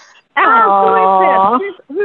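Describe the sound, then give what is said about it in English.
A female guide dog playing with her toys lets out one long, steady, whining squeal lasting about a second, followed by a short, fainter note. “For those who cannot see, this is my guide dog Magic. She's playing with her toys.”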